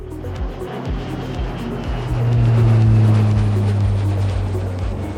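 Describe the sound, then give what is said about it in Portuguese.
A private jet taking off, as a sound effect: a broad, low engine roar that swells in the middle and then holds steady. “verifique se a mesinha da sua frente está devidamente presa e aperte os cintos, pois esse jatinho vai decolar.”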